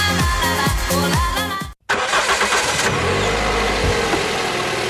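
A car engine starting and running: after a short gap of silence the engine catches and settles into a rough, steady mid-pitched rumble that continues loudly to the end.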